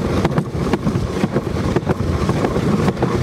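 A motorboat engine runs at full throttle on the water, a loud, steady roar mixed with heavy wind buffeting for the whole stretch.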